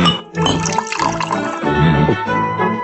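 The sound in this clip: Water poured into a glass, heard as a loud, continuous splashing gurgle with ringing tones that shift as the glass fills, running for nearly three seconds.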